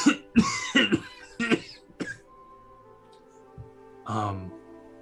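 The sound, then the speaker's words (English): A woman coughs in a quick series of harsh, throaty bursts, then pauses before one longer, strained voiced sound; the coughs are fairly loud against a quiet background. “And she starts coughing.”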